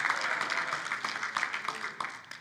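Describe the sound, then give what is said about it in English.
A church audience claps along during worship. The claps are fairly faint and fall in a steady series of sharp hand slaps over a soft wash of sound. “Would somebody just clap your hands a little bit to the Lord?”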